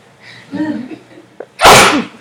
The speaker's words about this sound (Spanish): No, voy a estornudear.